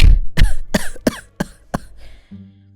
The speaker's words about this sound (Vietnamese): Thầy nói xong rồi lại ho từng tiếng mệt mỏi.